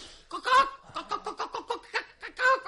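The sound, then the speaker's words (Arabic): A hen clucks in a rapid, uneven series of many short, nasal clucks, with louder, fuller bursts at the start and near the end. “مولانا السكسك فرخة بتوكوك.”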